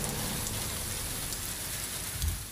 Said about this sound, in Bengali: আরও কালো হয়ে উঠছে আকাশের মেঘ আরও জোরে ঘন ধারায় পড়ছে বৃষ্টি ঝমঝম ঝমঝম ঝমঝম